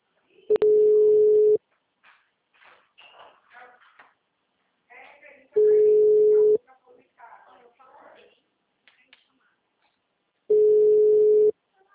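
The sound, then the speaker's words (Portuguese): Telephone busy tone after a dropped call: three steady, mid-pitched tones, each lasting about a second and spaced roughly five seconds apart, with a voice talking quietly between them. “A ligação caiu? Tudo bem? É, oi. Acho que a ligação caiu, né?”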